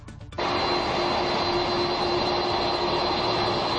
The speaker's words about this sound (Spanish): Ese que están oyendo es el sonido del Air Force One, el avión del presidente de Estados Unidos, deslizándose por la pista de Torrejón de Ardoz.